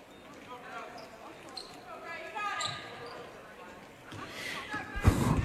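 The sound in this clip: Basketball dribbled on a gym court during a girls' high school basketball game. A few hollow bounces sound under a commentator's steady talk, with a louder burst of court noise near the end.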